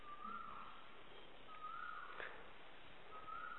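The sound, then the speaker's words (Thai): Faint whistled song of a krawao bird singing outside: three long, mournful notes at a steady pitch, evenly spaced over quiet background hiss. “รู้สึกไหมตอนที่เราฟังนกร้องเราลืมตัวเราเองเนี้ยนะเนี่ยหัดไปนะหรือนกมันร้องเพราะรู้สึกไหมเนี่ยนกกระว่าวนะเนี่ยร้องเพราะวังเวงฟังเอาเลยให้ร้องเลยมันเงียบไปแล้ว”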